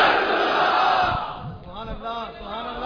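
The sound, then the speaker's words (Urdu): A crowd roars in response to Nara-e-Takbir and Nara-e-Risalat chants at a religious gathering. A loud, dense shout fills the first half, then raised voices carry on more unevenly. “نعرہ تکبیر، نعرہ رسالت.”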